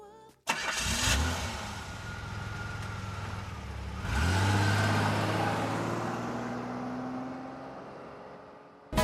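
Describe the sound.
A car engine cranks briefly and fires, settles into a rumbling idle, then revs louder around the midpoint as the car pulls away, with the engine drone slowly fading afterward.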